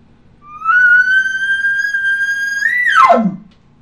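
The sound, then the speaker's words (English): A human voice imitates an elk location bugle in one call. It starts low, sweeps up to a high, whistle-like tone held for about two seconds, then drops sharply into a short, low, rough ending. “Drop it off at the end. Then you have a location bugle. It sounds like this.”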